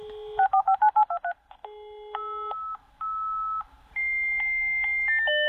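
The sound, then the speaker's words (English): Dial-up modem connecting to the internet: a quick run of several touch-tone dialing beeps, then steady and shifting electronic handshake tones, loud and alone with no voices. “I will recognise the dial-up sound, yes. The dial-up sound, correct.”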